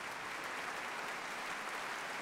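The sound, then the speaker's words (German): Dense, steady applause from a concert hall audience after a piano performance, a continuous wash of many hands clapping with no single claps standing out and no voices. “Der Applaus ist groß in der Berliner Philharmonie”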